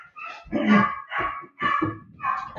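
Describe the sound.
Dogs barking in a few loud, rough bursts with strong harmonics, separated by short gaps, with no talk.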